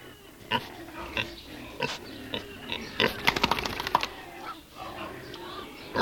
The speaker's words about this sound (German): Wenn der Bauer hereinkommt, ist im Schweinestall was los.